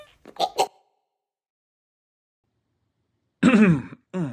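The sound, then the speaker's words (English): Throat clearing: a few short, rasping bursts close together, then a pause of nearly three seconds before a longer voiced burst and a brief final one. “Sorry, got something caught in my throat there.”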